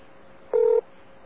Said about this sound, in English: Dialing.